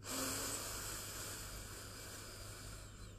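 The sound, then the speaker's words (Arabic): A slow inhale through the nose during a breathing exercise, a soft, steady airy hiss lasting about three seconds, faint and without talk. “بعد مرة شهيق من الأنف”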